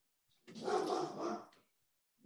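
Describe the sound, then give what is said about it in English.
A dog in the background gives a single faint, drawn-out bark lasting about a second, alone with no talk over it. “got the mascot in the background there. I was going to say, I think your dog has something to say about it too.”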